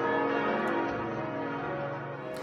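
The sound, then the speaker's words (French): Church bells ringing in unison in cathedrals across France, a dense, continuous wash of overlapping metallic tones without clearly separate strikes. “Il y a d'abord eu les cloches qui ont résonné à l'unisson dans toutes les cathédrales de France.”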